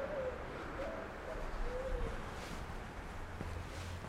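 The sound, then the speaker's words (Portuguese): Pigeons coo on a city street corner, a few soft, faint calls over steady street noise. “sempre de olho nos passarinhos. As pombas.”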